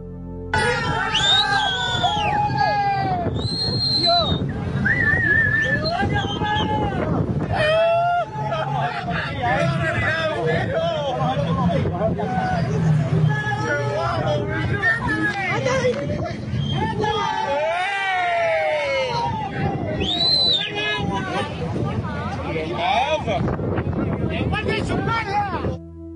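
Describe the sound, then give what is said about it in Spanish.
People on a shore jeer and cheer at a drug-smuggling speedboat, many overlapping shouting voices forming a loud, continuous crowd hubbub that barely lets up. “escuchen cómo vieron la misma escena los amigos de los traficantes que desde la orilla se mofaban y jaleaban a la narcolancha, e incluso apuntaban con punteros láser a la Zodiac de la Guardia Civil.”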